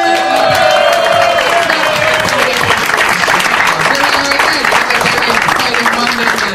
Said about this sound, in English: Hey, this is Red Band coming to you live from the world famous Comedy Store for a brand new episode of Kill Tony. Give it up for Tony Hinchcliffe!